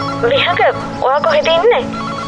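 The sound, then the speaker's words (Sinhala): A telephone rings with an incoming call, sounding as a few short bursts of warbling electronic tone separated by brief gaps. “හදිස්සියම විහඟට නිශාදකින් call එකක් ආවා.”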